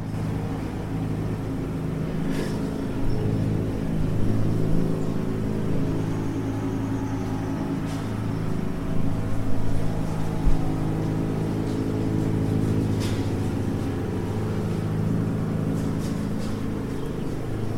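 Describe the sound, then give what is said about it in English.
Riding mower grinding up rocks and sticks on a porch in the Cuyuna Iron Range: a continuous low engine drone with rich steady harmonics, broken by a few sharp clicks and crunches. “a riding mower grinding up rocks, sticks, and everything else in its path.”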